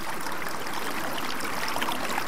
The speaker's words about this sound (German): Ich fange eben an zu begreifen, dass ein Wasserrauschen nicht nur ein Wasserrauschen ist, sondern dass es tausend Nuancen von Wasserrauschen gibt